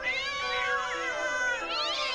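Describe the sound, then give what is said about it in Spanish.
Several cats meow and caterwaul at once in a neighborhood at night, their loud wavering wails overlapping without pause and bending up and down in pitch. “a ver por qué la pandilla de gatos se estaba portando tan mal”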